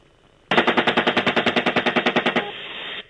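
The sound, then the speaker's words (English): A helicopter-mounted gun fires at a truck in one loud, rapid burst of many evenly spaced shots lasting about two seconds. A steady rumbling drone continues after the burst stops. “Go ahead, shoot it.”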